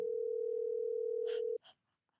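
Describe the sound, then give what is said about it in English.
Steady telephone dial tone, heard while a call is being dialed, holds loud and unbroken for about a second and a half, then cuts off abruptly, followed by a few faint, brief sounds. “I'll dial it so we're not saying it out loud on camera.”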